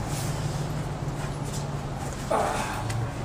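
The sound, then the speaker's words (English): A dog gives a brief whimper or yip partway through, heard over steady, loud background noise. “Oh my gosh, it's a dog, folks.”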